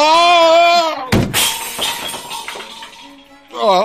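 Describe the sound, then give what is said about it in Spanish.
Sound effect of a man falling hard off a bicycle: a sudden loud crash with clattering, rattling debris that trails off, with voices just before and just after. “¡Pero qué costalazo me he puesto! ¡Ay, no se hizo daño, maestro! Déjeme ayudarlo. ¡Ay, levántese! Me parece que necesito más práctica para dominar la bicicleta.”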